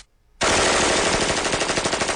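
Automatic gunfire breaks out suddenly after a brief quiet moment: a loud, sustained rattle of many rapid, evenly spaced shots that continues without pause to the end, with no voices.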